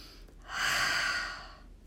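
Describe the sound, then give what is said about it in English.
A single deep breath taken as a calming breathing exercise: a soft, airy rush that swells and then fades over about a second, with no talk. “when we take a deep breath in through our nostrils and hard out through your mouth”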